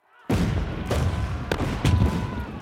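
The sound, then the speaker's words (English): Artillery and gunfire erupt on the Janissary barracks as the Sultan's loyal troops open fire: a sudden loud boom gives way to a sustained roaring rumble, with a few sharper blasts cracking through. “The Sultan has already ordered the barracks surrounded by artillery. Now, with the trap sprung, he orders the troops loyal to him to open fire.”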